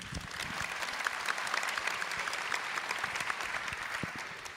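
An audience applauds to welcome a film producer and director as an interview guest. The clapping is dense and steady, with crisp individual claps, and it eases slightly toward the end.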